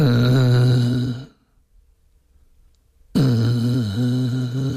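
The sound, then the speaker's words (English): A man groaning while lying in bed: two long, low, droning groans separated by a silent pause, the second one wavering slightly in pitch. “I just lay in bed and groaned.”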